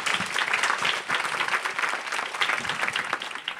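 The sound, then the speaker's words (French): An audience in Manosque applauds a guest novelist as she is welcomed on stage, a dense, steady applause that holds at an even level throughout with no voices over it. “Regardez comme le public manosquin vous accueille. Il aime beaucoup votre venue, il aime beaucoup votre présence.”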